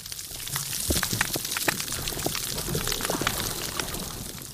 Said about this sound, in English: I believe this first one is an example of a coral reef that's been damaged by bleaching.